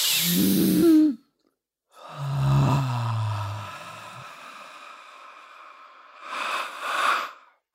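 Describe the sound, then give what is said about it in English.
Deep breaths drawn in through the nostrils. A breathy, sighing inhale is followed after a pause by a longer rushing one with a low groaning tone, then a shorter noisy breath. No talking. “let me hear you breathe it in deep through those nostrils. Let me fucking hear you breathe it all in.”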